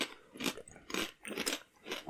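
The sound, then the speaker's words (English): An energy drink being sipped and swallowed, heard as a few soft, rhythmic gulping bursts at roughly even intervals with quiet gaps between them. “So let me get a sip of my energy drink here.”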